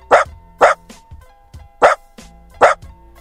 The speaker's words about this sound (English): But that is a doggy, a sweet little doggy. I don't know what kind, but I know that it is not a computer.